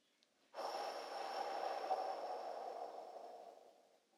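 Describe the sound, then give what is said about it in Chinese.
One slow, steady exhalation during a guided children's breathing meditation, a soft breathy hiss lasting about three and a half seconds that starts suddenly and fades out gently at the end, with no talking. “来，我们深深的吸气。再慢慢的吐气出去”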